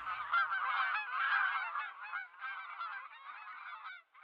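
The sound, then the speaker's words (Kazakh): A domestic gander honks in loud, rapid, overlapping calls that run in continuous bursts for about four seconds, dip briefly midway, then stop abruptly. “Ата Қаз ұшып кетті.”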